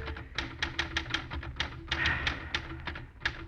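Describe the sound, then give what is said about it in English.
Keys clack on a battered typewriter in a quick, slightly uneven run of many sharp, crisp strikes, with no voices. “On his desk, a battered typewriter.”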